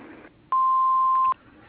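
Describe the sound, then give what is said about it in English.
An answering machine beep: a single steady, mid-pitched electronic tone lasting under a second, clear and alone between quiet stretches. “Please leave your name and number after the beep, and we'll return your call as soon as we can.”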